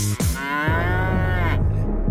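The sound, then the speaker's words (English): A cow moos once, a loud, low, drawn-out call with rich harmonics that holds steady for more than a second before fading. “I like the way you moo.”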